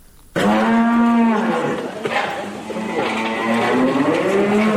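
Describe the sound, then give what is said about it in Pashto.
Cows lowing on a small dairy farm in Kandahar. One long, loud, deep moo starts abruptly, and further drawn-out lowing calls follow, with no talk. “په کندهار کې د غواګانو یو کوچنی فارم”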